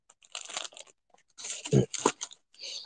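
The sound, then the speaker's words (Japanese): Crinkly tearing and crunching as a sticker is peeled from its backing to be stuck on a suitcase, in a few irregular bursts separated by short gaps, fairly loud and close. “ステッカーあるわ。貼るか。”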